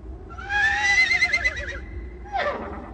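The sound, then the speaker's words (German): Horses whinnying in dawn mist on riverside meadows as riders gather before an attack: one long, loud neigh with a wavering, trembling pitch, then a second, shorter whinny that falls away. No voices. “Durch die Nebel der Morgendämmerung hörte man das Schnauben und Stampfen ihrer Pferde, noch bevor das Auge sie erspähte.”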